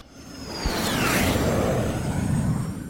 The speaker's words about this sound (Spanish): La nave despega en 5, 4, 3, 2, 1.